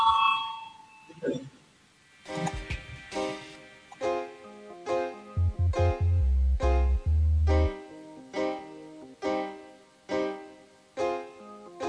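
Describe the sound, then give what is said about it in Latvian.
A parliamentary voting bell rings before a vote in a long, regular series of many bright, resonant strokes, each ringing out and fading before the next. “Debates slēdzu. Lūdzu zvanu balsosim par pirmo Saeimas juridiskā biroja iesniegto priekšlikumu.”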